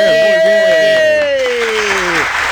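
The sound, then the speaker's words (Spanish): Applause swelling in behind a talking voice, then taking over in the second half as a broad, steady wash of clapping. “Uy, Gondi, aplauso para Gondi.”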